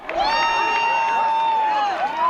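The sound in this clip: Crowd cheering at a total solar eclipse, with nearly 1000 people gathered on an open agricultural field in Segovia province, Spain; a loud, sustained high cry rises over the crowd noise and dips briefly near the end.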